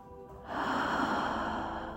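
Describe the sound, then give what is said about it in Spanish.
One slow, deep breath during a guided relaxation exercise, a soft airy rush that starts abruptly and holds steady for about a second and a half, fairly quiet and with no voice over it. “Inhala. Exhala.”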